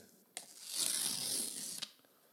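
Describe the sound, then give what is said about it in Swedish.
Paper tears as door number 7 is ripped off a calendar. A short snap starts about a second and a half of steady, rasping tearing, which ends in another sharp snap before it goes quiet. “Jag tror vi river av den här. Nummer 7.”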